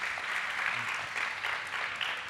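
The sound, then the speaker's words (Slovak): Faint applause from an audience as guests are introduced on a stage, a steady dense patter of many hands clapping throughout. “Vidíte, aký potlesk, to je sila pódia, ešte ani nemuseli ste nič povedať, už vám tlieskajú, stačí pozdraviť.”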